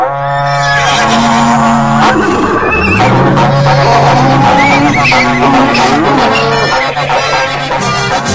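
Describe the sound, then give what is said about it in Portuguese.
A berrante cattle horn call sounds in a Brazilian sertanejo country setting, with loud, sustained low horn blasts that bend and slide in pitch. The blasts repeat over a busy, noisy background. “Repico berrante, véi Gerbásio, reúne a tropa aí, companheiros Aluquinha.”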